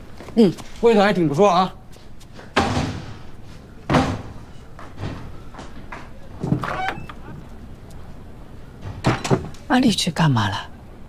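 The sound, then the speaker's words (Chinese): A door is shut and locked with a few short thuds and clunks. People talk over and between the knocks. “安利去干嘛了？锁门去了。”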